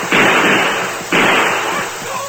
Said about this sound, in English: Try to murder us. I shoot again. Make sure of him.